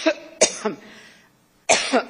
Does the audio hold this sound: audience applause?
no